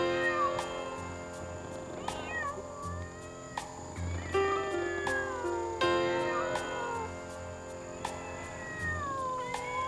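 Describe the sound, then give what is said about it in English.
Several cats meowing and caterwauling, with many drawn-out meows and yowls that bend up and down in pitch, overlapping in a fairly loud, continuous stream. “We're listening to some cats that were friends, some cats that were lovers,”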